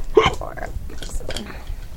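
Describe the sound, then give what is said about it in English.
A single sharp hiccup at a tabletop dice game, short and abrupt near the start, followed by quiet mumbled talk. “Stop hiccuping the luck away.”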